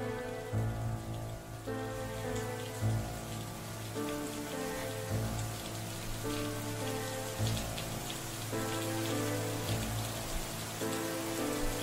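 Steady rain falls outside in damp weather, a faint continuous hiss of drops layered over low, sustained tonal music.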